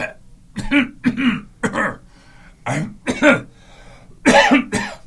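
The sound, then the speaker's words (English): A person imitates the coughing and throat clearing brought on by red tide irritation. The sounds come as a series of short, rasping hacks and throaty clears in uneven bursts, with no other talk. “If you're not coughing, if your throat isn't ticklish, if you're not clearing your throat, you are not in red tide.”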